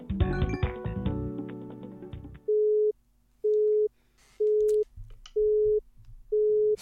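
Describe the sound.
Telephone busy signal after the caller hangs up: five steady, evenly spaced mid-pitched beeps with short silences between. They follow a dense, loud burst of mixed sound at the start.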